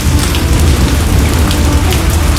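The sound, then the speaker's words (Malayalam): Rain falling in a village comes through as a loud, dense, continuous hiss of drops that stays even throughout, with no voices. “അപ്പോൾ ഇന്നത്തെ വിശേഷം മഴ തന്നെ.”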